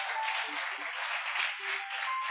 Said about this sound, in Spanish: Aplaudí al Señor. Por ahí te habla la carne. Aplaudí al Señor.